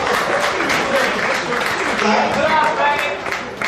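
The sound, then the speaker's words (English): Audience clapping at a comedy show, a dense, steady wash of applause that fills the whole clip with little change in loudness. “Oh, you can clap.”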